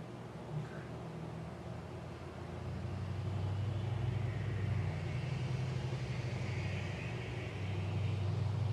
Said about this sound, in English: There was a truck going by.